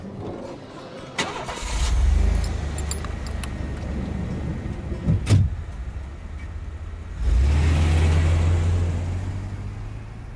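A good-sized car's engine cranks into life and settles into a low, steady rumble, then swells noticeably louder and fuller near the end as it pulls away.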